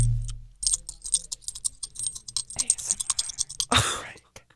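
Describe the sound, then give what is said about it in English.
Dollar coins jiggled together in a hand, giving a few quick bursts of bright metallic clinks and rattles, each cluster separated by brief pauses. “can you jiggle for the microphones? That is the sound of a $1 coin.”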